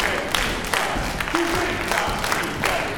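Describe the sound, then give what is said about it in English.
Students in a music class clapping and stomping a rhythm while practising eighth notes, with sharp claps landing in a steady, regular pulse and a voice heard briefly midway. “Yes, you're gonna clap what you speak, but stomp those eighth notes.”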